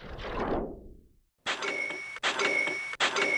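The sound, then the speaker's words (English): Cash-register style ding of a Shopify sale notification: a fading noisy swoosh, a short silence, then three bright chiming bursts in quick succession. “I love that sound. Always pumps me up. That is the sound of another sale on Shopify,”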